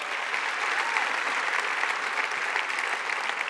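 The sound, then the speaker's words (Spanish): Applause from a church audience: steady, dense clapping at moderate volume that carries evenly through the whole clip without breaks, with no talk over it. “Dale fuerte el aplauso al Señor.”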